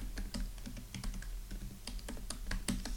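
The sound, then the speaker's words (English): Someone types a name on a computer keyboard at a Mac login prompt, producing many quick, irregular keystrokes. The clicks are soft and faint, with no voices. “Just going to type in my name.”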